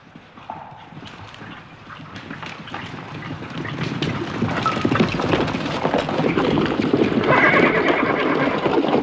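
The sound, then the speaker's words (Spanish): Horses whinny over the busy clip-clop of many hooves as mounted soldiers ride out of woods beside a road. The hoofbeats grow louder, with a couple of neighs among them. “De ambos lados del bosque que bordea la carretera salen soldados a caballo.”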